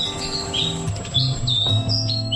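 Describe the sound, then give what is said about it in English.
Black Robin song: a small bird's quick series of short, high whistled chirps in brief phrases, over low, steady tones. “That is the bird song of the Black Robin, which has taken out the Bird of the Year for the first time, one of our smallest birds.”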